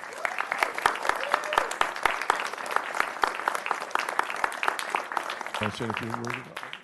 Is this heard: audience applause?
yes